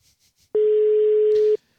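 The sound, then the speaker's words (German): A telephone busy signal plays as a single steady mid-pitched tone, loud and unbroken for about a second, then it stops, with no voices over it. “Besetzt geht er noch nicht ran, wie ihr hört.”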